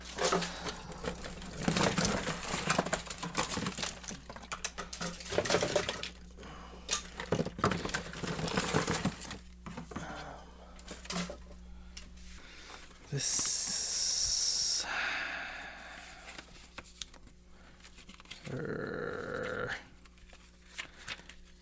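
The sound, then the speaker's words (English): Paper tearing as pages are ripped out of a sketchbook, with rustling handling noise and then a few loud, long ripping bursts later on. “I'm ripping out some pages from a sketchbook that I'm going to keep, and the rest I'm going to give away.”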